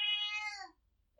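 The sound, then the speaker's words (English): A single domestic house cat gives one short, fairly faint meow. It is a clear, high, tonal call that bends downward and fades within well under a second, followed by near silence. “That's my cat.”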